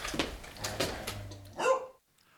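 Barks and yips from a dog being squeezed in a studio: several short, sharp bursts, then a louder, tonal yelp, followed by near silence.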